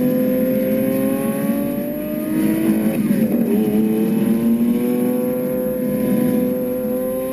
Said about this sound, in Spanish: Este es el sonido de un Lamborghini Aventador de hasta 700 centímetros cúbicos de potencia, casi nada.